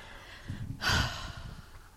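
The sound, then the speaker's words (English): A person groans in a low, breathy voice that swells briefly to a louder exhale partway through, then trails off over quiet background noise. “I don't understand why you're groaning.”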